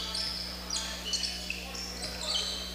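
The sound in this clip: A basketball is dribbled on court during a game, with faint, repeated bounces under a steady crowd murmur.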